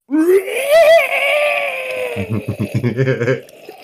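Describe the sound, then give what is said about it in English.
A human voice imitates inhuman bestial screams with a loud, strained, rising wail that breaks into a rough, pulsing guttural growl before it trails off. “you can hear off to the southwest some inhuman bestial screams”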